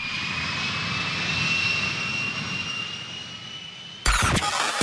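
Jet aircraft taking off: a loud, steady roar of engines with high, sustained whining tones, held evenly until an abrupt change near the end.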